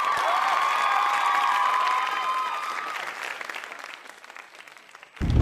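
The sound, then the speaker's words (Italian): Applause from a crowd, a dense, steady patter of clapping that gradually thins and fades over about five seconds before a sudden louder sound cuts in at the end. “E anche questo merita, a nostro avviso, un grande applauso.”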